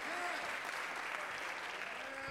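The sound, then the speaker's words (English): A church audience claps its hands during a worship service, producing a faint, steady patter of applause with some faint voiced tones beneath it. “Come on, clap your hands.”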